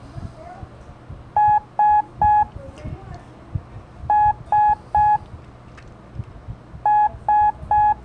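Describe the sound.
The Morse code letter S sounds as three groups of three short, evenly spaced, identical electronic beeps, nine beeps in all, with pauses between groups over low background noise.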